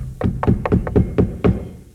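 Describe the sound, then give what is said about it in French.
Knocks struck for the traditional three knocks before a theatre curtain rises on a staging of Numance: a run of several dull, resonant thuds at a fairly steady pace, with no talk. “Les trois coups. Et le rideau se lève devant les murs de Numance.”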